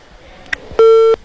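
A telephone call that has been cut off ends with a faint click, followed by one loud, steady electronic beep at constant pitch lasting about a third of a second.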